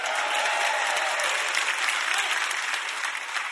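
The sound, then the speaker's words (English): Church audience applauding and cheering for a single played note, middle C: a steady, dense wash of clapping that holds level from start to finish. “Anybody who thinks it's a good note, make some noise for middle C.”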